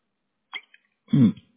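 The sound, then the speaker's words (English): Coughing from someone who swallowed the wrong way: a faint throaty catch, a moment of silence, then one loud, rough, choking cough. “Excuse me. Swallowed the wrong way.”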